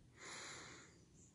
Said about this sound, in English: Again, take another deep breath in.